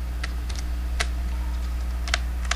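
Computer keyboard keys are pressed while a computer runs Linux in a virtual machine, giving a few sparse, crisp clicks at irregular intervals over a steady low electrical hum.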